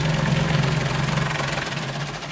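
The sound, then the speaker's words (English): A bowl chopper runs at slow speed while mixing marinated sausage meat. It makes a steady, fairly loud mechanical whir over a low hum, continuous and unchanging, with no voices. “So we turn on the bowl chopper now, and you can at the slow speed.”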